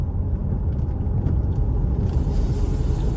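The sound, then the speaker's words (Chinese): Steady road rumble from a Xiaomi SU7 electric car accelerating in the right lane, a dense continuous low drone with a brighter high hiss joining partway through; no voices. “然后现在我驾驶黄先生这辆小米苏七马上加速，紧握方向盘，”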